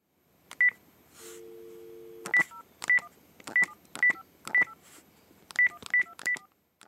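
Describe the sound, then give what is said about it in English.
A telephone number is dialed on a keypad: a low dial tone hums briefly, then a string of short, sharp keypad beeps follows in an uneven rhythm, clear and alone with no voices. “He's dialing a number.”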